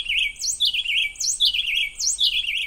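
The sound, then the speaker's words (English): Canebrake wren song with bright, high whistled notes in quick, rolling phrases. The phrases repeat several times over a faint low background, and no voices are heard. “She and her team recorded the formative songs of a bird called the canebrake wren in their nests”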